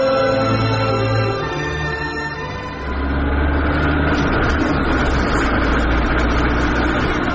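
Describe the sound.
A car engine runs with a steady, broad low rumble and a rushing hiss that holds at an even level for the whole stretch, with no voices over it.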